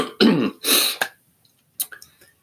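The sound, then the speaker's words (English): A morning throat clearing: a few rough, rasping bursts in quick succession, then a short pause and softer, smaller clearing sounds. It is loud and alone, with no words spoken. “pardon me, morning clear of the throat”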